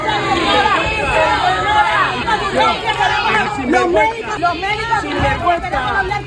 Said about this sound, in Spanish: A su llegada para reunirse con el presidente ceutí, la esperaban algunos profesionales sanitarios entre abucheos.